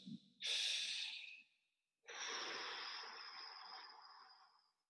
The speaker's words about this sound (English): make sure that you sort of embrace this kind of more calm, relaxed breathing. Exhale, lengthen the exhale.